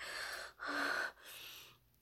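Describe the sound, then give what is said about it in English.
Heavy, gasping breaths from a person come in about three pulses with short gaps between them. The middle breath is the loudest and carries a faint whimpering tone. No speech. “you're breathing.”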